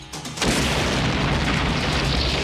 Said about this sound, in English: That was a bomb? That had a hell of a factory recall.